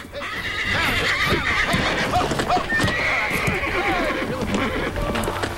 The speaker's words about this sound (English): A wild horse rears against a rope around its neck, which one of Jameson's men is holding at a distance.